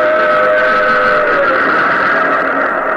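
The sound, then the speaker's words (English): A train roars out of a tunnel hewn through mountain rock, a loud, continuous rumbling roar that holds steady from start to finish with no voices. “plunging from the tunnel's mouth, like some black, terrible monster, roared a train. It tore by me in a deafening roar.”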